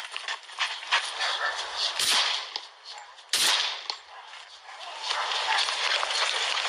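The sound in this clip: Two sharp gunshots from a handgun crack out about a second apart, loud against a noisy background with voices around them.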